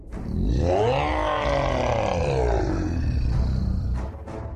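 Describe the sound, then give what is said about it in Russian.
A demonic growl forced from a woman's throat: one long, loud, rough roar that holds for about four seconds with a heavy, rasping, harmonic tone before easing off at the end. “Из ее горла вырвался дьявольский рык, способный своим напором сметать города.”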